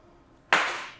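Hands clap together once, with a sharp, loud attack that rises abruptly out of near silence. A bright tail then fades away over about half a second.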